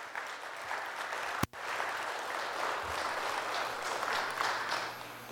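A church audience applauds to welcome someone coming forward during a sermon: a steady, dense wash of clapping that holds at an even level throughout, broken by one sharp click early on.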